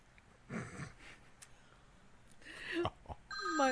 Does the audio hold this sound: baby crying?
no